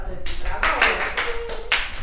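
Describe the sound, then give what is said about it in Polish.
A few irregular hand claps during a children's quiz lesson, crisp separate bursts spaced unevenly under a talking voice. “Brawa.”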